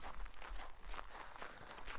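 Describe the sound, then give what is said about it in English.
Footsteps walk at an even pace, soft and quiet, with regular steps and no talking. “Come, I'll walk you back to the inn.”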